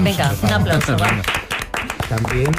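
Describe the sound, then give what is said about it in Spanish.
Radio studio staff give a round of applause to thank the team, scattered hand claps heard beneath a person talking over them. “Y tenemos que dar las gracias a todos nuestros compañeros. Un aplauso,”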